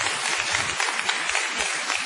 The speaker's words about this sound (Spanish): un aplauso a Sara que habla alto, aleluya